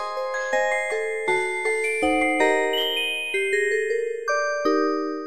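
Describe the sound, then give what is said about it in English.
A tinkling tune plays on the tuned metal comb of a musical box, like a 17th-century one, with bright plucked metallic notes ringing and overlapping in a steady melody, heard alone. “but to a tuned metal comb, like in a 17th century musical box. It's the same principle. And if we did, it would sound like this.”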